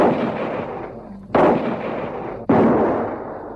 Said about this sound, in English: Reload and get the other two, quickly. Now you're shooting. Get that other one.